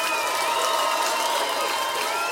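Audience applause for a band at a music festival in Manchester: a dense, steady wash of clapping with crowd noise that holds at an even level throughout.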